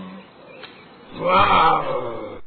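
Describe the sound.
A lion roars in a forest. It gives one rough, breathy roar that swells partway through and stays loud to the end over a low rumbling background.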